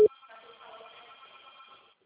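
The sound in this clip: A telephone rings in one sustained burst of steady electronic ringtone after a sharp click at the very start. The ringing stays moderately quiet and even, then cuts off just before the end.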